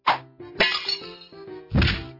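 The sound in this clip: A ball breaks window glass in a school drama scene, heard as a series of hollow thwacks and thunks ending in one loud, crashing impact.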